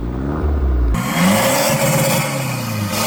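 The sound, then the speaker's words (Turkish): A car engine revving hard with a remote-controlled exhaust during a roadside traffic inspection: a loud, sustained roar that turns abruptly harsher and louder after about a second and holds steady. “Gaz verelim. Tam gaz, tam gaz. Ver. Gaz.”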